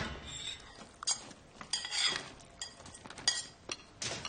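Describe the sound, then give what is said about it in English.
A bowl scraped clean into a bin, the remains pushed off with cutlery in several sharp, scratchy strokes and clinks separated by short pauses. “She picks up her bowl and scrapes the rest into the bin.”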